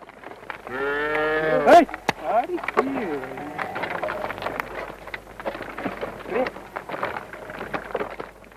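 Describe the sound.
A pair of cattle moo as they wait to be fed straw: one long, low, drawn-out moo, then a shorter one, followed by people talking over rustling noise.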